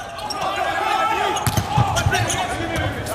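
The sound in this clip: Sharp impacts of a volleyball serve in a match involving the Chinese team, a few thuds cutting through crowd noise while a commentator talks excitedly.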